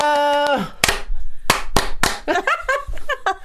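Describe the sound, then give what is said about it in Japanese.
Rhythmic clapping in the style of the audience clap from the Japanese TV show Waratte Iitomo: one sharp clap, a pause, then three quick claps, with voices heard before and after. “今こそいいともの拍手がこのコロナ禍にぴったり。”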